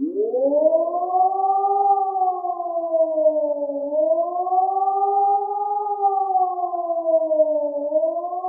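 A civil defence warning siren signalling a natural disaster or emergency, alone and loud: a steady tone sweeps up from low at the start, then wails slowly down and up again in long, even waves.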